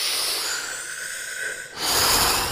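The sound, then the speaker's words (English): A deep breath is drawn in as a long, soft, airy hiss, then a louder rush of breath follows. “draw one big breath in to fill in your lungs. Feel your belly and chest expanding. And then when you're full capacity, hold the breath for around 15 seconds and then let it go.”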